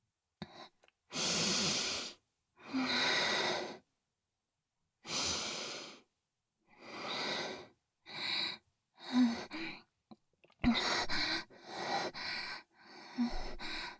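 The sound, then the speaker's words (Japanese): Sniffing as a person smells unwashed underwear: many sharp, breathy inhalations in separate bursts, some long and drawn out, others quick and clipped toward the end, with no talking. “もうちょっと嗅がせてもらうわね。”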